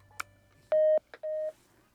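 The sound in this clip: A telephone number being dialed: a sharp click, then two steady keypad beeps of about a quarter second each, with brief blips around them. The sounds are clear against near silence.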